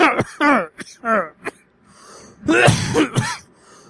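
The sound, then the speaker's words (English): Coughing from a person on hold with a pharmacy clinic: a few rough, breathy bursts clustered near the end, with short voiced sounds before them. “Did she really hang up just because I was coughing?”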